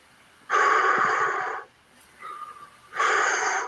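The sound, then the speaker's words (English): Breathing exercise sounds: a person takes short inhales and longer exhales. Two loud, drawn-out, airy breaths are separated by a quieter, shorter breath, with no talking. “you're gonna do short inhales and a little longer exhales. So I will go like,”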